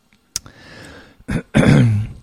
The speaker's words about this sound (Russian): Excuse me. Swallow the water the wrong way.